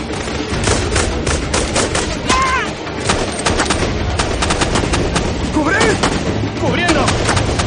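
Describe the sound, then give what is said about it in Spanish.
Heavy gunfire crosses a river in a war film battle: refugees and soldiers shoot from the brush at advancing rebels. Many loud rifle and machine-gun shots crackle densely, with almost no pause between them. “Los refugiados y militares se resguardan entre la maleza mientras disparan al otro lado del río, tratando de que los rebeldes no avancen.”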